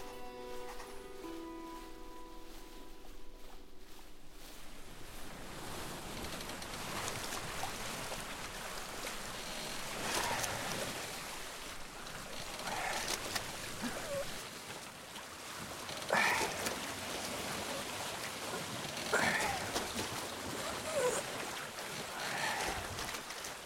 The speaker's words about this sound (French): Ramène un peu de voile, le Billon. Ça souffle trop fort.